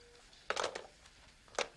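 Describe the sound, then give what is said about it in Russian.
A telephone handset is hung up: a short clattering clunk as it lands in the cradle, then a second brief knock about a second later, both faint. “Надя кладет трубку телефона.”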